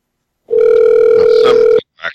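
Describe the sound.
A telephone dial tone sounds while a call is placed: a single loud, unbroken steady hum lasting a little over a second, followed by a short, faint sound after it cuts off.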